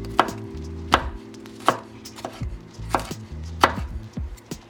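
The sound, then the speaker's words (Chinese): Garlic and ginger being chopped with a knife, crisp blade strikes against a board at a steady, evenly spaced rhythm, each chop sharp and clear with no talking over it. “那我现在就是呢，在切碎我们的蒜头跟姜。”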